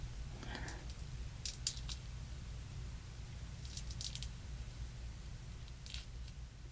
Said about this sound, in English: the glue has mostly dried on my hand. I'm not sure if I made it thick enough to get a good peel, but we'll see.